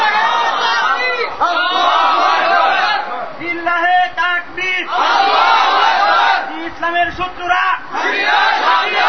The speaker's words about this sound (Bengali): Slogan দিলে জোরে দিবেন যেন শয়তান ভয় পেয়ে চলে যায়, ইমানের জজ্বা তো আসতে হবে, এই দুর্বলদের কাজ হবে কিছু? তাকবীরের ধ্বনিতে শয়তান পালায়, কুফাররা পালায়